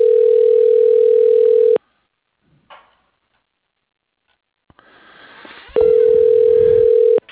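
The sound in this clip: Telephone tones from a phone system dialing an extension: a loud, steady, mid-pitched tone, then a pause with a brief click and faint noise, then the same steady tone again.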